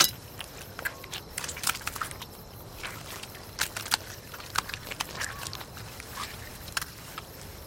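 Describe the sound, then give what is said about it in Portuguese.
Wet chewing and biting as a man gnaws raw meat torn from a slain jaguar, held in bloody hands: many faint, irregular crunches and clicks with no talk. “Mastiga uma parte do animal. Segura com as mãos de onde escorre sangue.”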